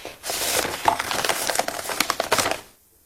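An envelope is opened and handled, giving a busy run of crinkling, rustling paper noises with many small sharp crackles for about two and a half seconds before it falls silent.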